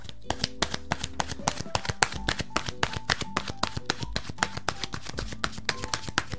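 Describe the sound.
Oracle cards being shuffled by hand, a quick run of crisp, evenly spaced flicks and slaps, with soft sustained musical tones underneath.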